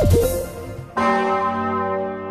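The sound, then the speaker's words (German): The great Osanna bell of the Martinskirche in Kassel, a large church bell, fades from an earlier stroke before one loud new strike near the midpoint blooms into a sustained, overtone-rich ringing hum. “In einer halben Stunde läutet sie wieder, die große Osanna-Glocke der Martinskirche in Kassel.”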